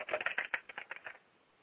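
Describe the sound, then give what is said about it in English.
Computer keyboard typing on a quick email: a short burst of many crisp, rapid key clicks for about a second, then quiet. “I'm typing right now, so those of you, you're hearing the keyboard here.”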